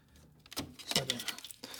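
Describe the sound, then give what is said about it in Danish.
Plastic clicks and rattles as a brown tape with a green leader is pressed onto the left reel of a reel-to-reel tape recorder; several sharp, irregular clicks and scraping handling noises build up over the second half. “Jeg klikker det på her, prøver at få det til at komme ind”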